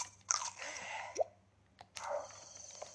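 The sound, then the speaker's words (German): Crunchy chewing sound effect from a video game as a character eats: a few short, wet, crisp bursts, quiet and with no talk. “Schnell was mampfen.”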